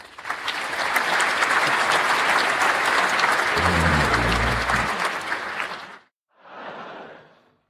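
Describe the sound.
A studio audience applauds loudly and steadily for about six seconds before stopping abruptly, then a brief second burst of clapping follows.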